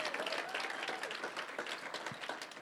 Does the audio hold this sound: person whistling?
no

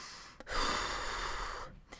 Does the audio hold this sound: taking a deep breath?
yes

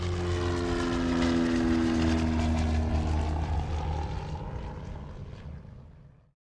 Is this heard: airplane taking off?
yes

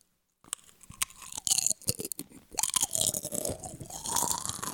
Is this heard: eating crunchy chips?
yes

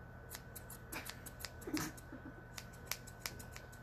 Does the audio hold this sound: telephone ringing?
no

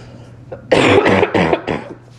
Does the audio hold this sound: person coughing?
yes

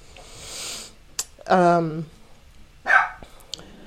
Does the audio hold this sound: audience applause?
no

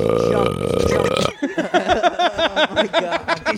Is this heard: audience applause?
no

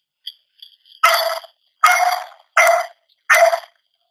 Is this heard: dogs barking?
yes

